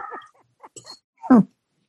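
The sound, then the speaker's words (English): A dog plays with its squeak toy, making a few short, whine-like squeaks separated by brief gaps. The last squeak is the loudest and slides downward in pitch. “that's my dog who found his squeak toy. Oh, he's playing with his toy.”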